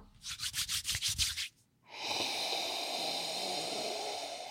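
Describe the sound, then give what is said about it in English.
Hands rub eucalyptus oil between the palms in a quick run of rhythmic, scratchy strokes. After a short pause comes a steady, soft airy rush, all fairly quiet. “Hold on, let me actually put some eucalyptus in my hand.”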